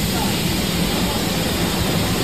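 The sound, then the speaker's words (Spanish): A torrential night downpour in Castellón pours down as a dense, loud, unbroken roar of heavy rain, steady and unchanging from start to finish. “Así sonaba anoche la tromba de agua en Castellón.”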